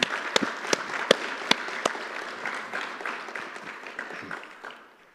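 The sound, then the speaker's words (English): Audience applause after singers at a church service: a dense patter of clapping with several sharp, louder claps standing out early, then thinning gradually and fading away toward the end. “let's just give a round of applause to all these”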